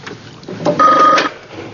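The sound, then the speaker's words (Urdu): A telephone rings once in a home, a short bright trilling burst that stands out clearly over quiet background. “دیکھو بیٹا ٹیلی phone پہ کون ہے.”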